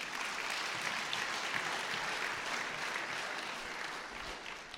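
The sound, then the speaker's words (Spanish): Applause from a church audience during a Sunday sermon: dense, steady clapping that fills the whole clip at an even, moderate level without a break. “Aplauso, se lo ganó.”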